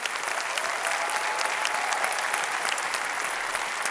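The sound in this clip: Audience applause welcomes two guests onto a church stage: dense, even clapping from a large crowd, holding a steady loud level throughout with no voices on top.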